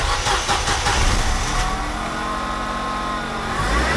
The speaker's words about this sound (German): Mörchi fährt wie wild im Kreis und Diego muss aufpassen, dass er nicht unter die Räder kommt.